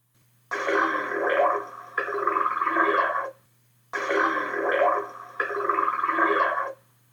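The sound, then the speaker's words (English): Humpback whale throp calls recorded in Alaska, a social sound: four loud, gurgling, burp-like low bursts, each about a second long and grouped in two pairs, over a faint steady low hum. “It's what is described as a throp call from a humpback whale, and it's a sound that Fred recently recorded under his research permit number 19703 with the Alaska Whale Foundation.”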